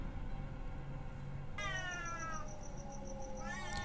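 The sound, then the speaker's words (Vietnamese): Two cats yowl as if about to fight: a long, drawn-out wailing cry starts partway in, and another rising cry follows near the end, faint overall. “có tiếng con mèo nó đang kêu, mà không phải tiếng kêu bình thường, mà giống như là hai con mèo nó đang kêu gào muốn đánh nhau vậy.”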